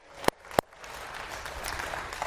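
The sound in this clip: Church audience clapping during a sermon: two sharp, loud claps spaced about a third of a second apart, then softer, scattered clapping that fades into a low murmur.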